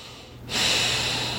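A single deep breath drawn in sharply through the nose after a brief quiet moment, then held as a steady, airy rush until the end.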